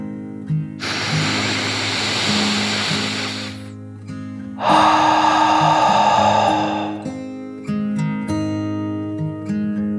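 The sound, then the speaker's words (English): A deep breath in and out as a calming bedtime breathing exercise: two long airy rushes of hissing air, the second stronger, over a soft, steady musical background of low held tones. “took another deep dragon breath in and out.”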